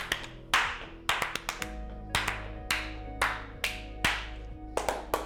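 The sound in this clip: Sharp single hand claps land in an uneven, off-beat pattern, many in all, some closely paired. They imitate a churchgoer clapping out of time during worship songs, over faint sustained background tones.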